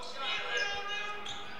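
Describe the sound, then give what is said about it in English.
A basketball is dribbled on a court as the clock runs out at the end of a game, with a few faint bounces under steady crowd noise. “Now just going to dribble out the clock.”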